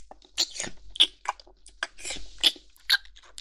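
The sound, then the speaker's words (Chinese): Chewing and eating of cheek meat, with irregular wet smacks, squelches and soft bites separated by short quiet gaps, and no talk. “开始吧，我受不了了，好饿啊！好吃，”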